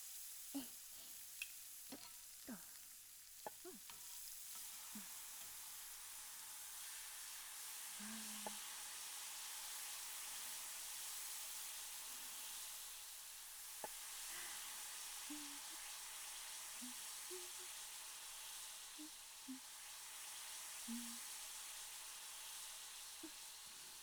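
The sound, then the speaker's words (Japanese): Asparagus frying in a pan gives a steady, quiet sizzle that holds throughout, dotted with many small pops and crackles. “食材によって出る音が全然違いますね。じゃあ次はアスパラガスさん。さてさて、あなたは一体どんな音を奏でるのでしょう。”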